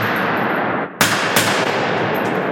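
Gunfire from a custom-built gun: two sharp, loud shots about a third of a second apart, cutting through a dense, steady roar of background noise.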